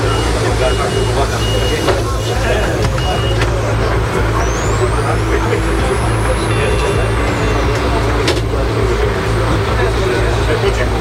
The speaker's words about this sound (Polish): No to jedziemy. Jak pan ocenia komfort? Komfort jest bardzo dobry. Tutaj w związku z tym, że to jest pojazd elektryczny, nie emituje dużego hałasu, także jedziemy cichutko, praktycznie niesłyszalnie